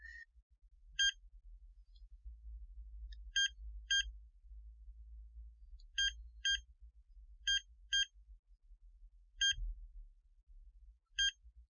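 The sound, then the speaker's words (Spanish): A locked iPhone gives short, high electronic notification beeps. Several brief tones, some in quick pairs, come at irregular intervals over a faint low hum. “Una notificación.”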